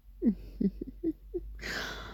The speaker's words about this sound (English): Was that a groan, babe?